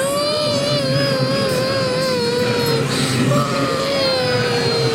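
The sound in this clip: A frightened child cries during tawaf at the Kaaba, a long, sustained high wail with wavering harmonics over steady background noise.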